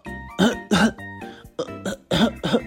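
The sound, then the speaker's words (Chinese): Harsh, voiced coughing from a sore, swollen throat caused by a cold comes in several loud bursts, grouped in pairs with short pauses between them. “喉咙肿起来，一直在咳嗽，我都没办法说话”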